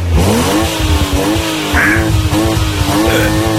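A car engine sound effect for a big car with an overhead-camshaft engine, heard as a loud, steady, droning hum whose pitch climbs at the start and then holds.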